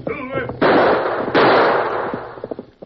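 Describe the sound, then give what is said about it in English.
Gunshots fired by a rider in a horseback chase: two loud blasts, each trailing a long noisy decay, followed by a few short clattering knocks. “Once more, Big Jack turned in the saddle and fired at the masked figure behind him.”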